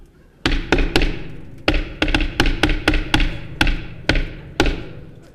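Sharp knocks on a door, many firm raps in short irregular bursts with brief pauses between them, fairly loud and with no talking.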